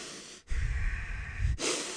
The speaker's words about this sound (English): Because what happens when you overbreathe, when you breathe too much, which is what you tend to do with your mouth, right? There's no restriction. Try to do that with your nose.